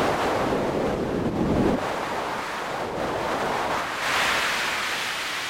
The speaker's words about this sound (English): the speed of helium as it was moving by the satellite, I was thinking that this would translate directly to something that might be similar to the sound of wind blowing here on Earth.